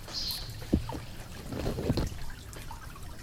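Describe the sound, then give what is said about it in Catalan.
Water runs in a faint, steady trickle, with a couple of soft splashes rising above the flow. “L'aigua, com corre l'aigua.”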